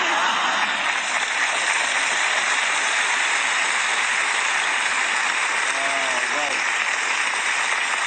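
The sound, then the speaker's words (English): An audience cheers and applauds in a steady, dense roar of noise that lasts the whole stretch, with a faint voice briefly showing through late on. “Quite a good cheer.”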